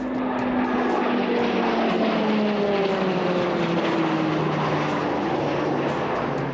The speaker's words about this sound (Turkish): Her iki uçakta 1600 beygir gücündeki PT-6A 68T turboprop motoruyla donatılıyor.